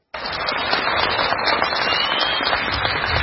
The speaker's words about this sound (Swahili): Ilikuwa ni shangwe na vigelegele kwa wakazi wa kijiji cha Kogelo kilicho katika kaunti ya Siaya nchini Kenya.